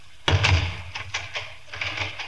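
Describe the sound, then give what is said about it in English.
A door being closed and locked, a heavy thud followed by a few softer clicks and rattles from the lock. “You may leave the room and lock the door.”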